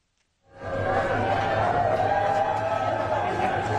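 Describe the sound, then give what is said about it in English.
A crowd greets U.S. President Joe Biden in Nantucket, a Massachusetts beach town, on Small Business Saturday. The noise of cheering and chatter rises after a brief quiet, then holds as a dense, steady roar. “That's the sound of a crowd greeting U.S. President Joe Biden in Nantucket, a Massachusetts beach town”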